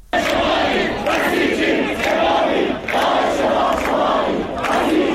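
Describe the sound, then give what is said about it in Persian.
A large crowd of protesters at Tabriz University of Medical Sciences chants loudly in rhythmic waves, many voices rising and falling together in repeated phrases with brief dips between them, dense and continuous throughout. “صدای یکی از اعتراض‌ها رو در دانشگاه علوم پزشکی تبریز که حاضران در اون بسیار پرتعداد دیده میشن میتونیم بشنویم.”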